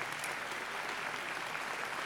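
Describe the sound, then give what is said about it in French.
Dense audience applause fills the air for the sign language interpreters at an exhibition opening during the Utopiales festival, a steady, even wash of many hands clapping without break. “Et puis, vous pouvez les applaudir.”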